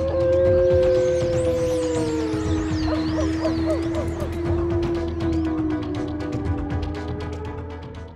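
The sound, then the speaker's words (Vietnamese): Dogs howling together at night in a village, long drawn-out howls that overlap and hold steady while higher wavering cries rise and fall above them, loud and sustained throughout. “Lũ chó đồng loạt tru dài từng hồi rợn người.”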